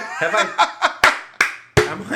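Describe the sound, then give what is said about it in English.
A sharp, loud hand clap cuts through chuckles and talk, set among a few short bursts of laughter and voices. “Sorry for the clap, but exactly.”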